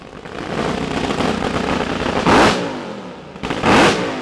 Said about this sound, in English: And then these engines roar.